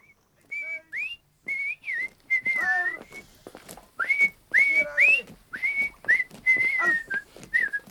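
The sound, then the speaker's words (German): Whistling of a lively tune inside a barracks, clear piercing notes that often slide upward, phrased in many short bursts with brief pauses, fairly loud and without talk. “Das ordinäre Pfeifen wird eingestellt.”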